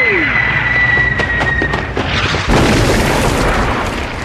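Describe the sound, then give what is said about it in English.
Mortar shells explode and blow apart a rope-climbing platform during a military training exercise, a loud, continuous barrage of booming blasts and crackling bursts that swells harder halfway through. “the mortar team are bullied into firing blind and demolish the platform out from under him”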